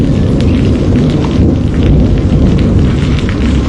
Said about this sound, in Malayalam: അയ്യോ, ദേ മഴ പെയ്യാൻ തുടങ്ങി.